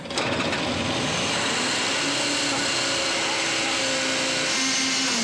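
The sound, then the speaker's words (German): Abnormal squealing from a failing pump or auxiliary drive bearing on a machine: a loud, continuous mechanical whine with steady tonal squeal lines held over a dense grinding drone. “Das Gekreisch ist nicht normal. Das Problem ist jetzt, das Geräusch kann ja aus der Pumpe oder aus dem Nebenantrieb kommen. Das Lager kann ja auch im Nebenantrieb kaputt sein.”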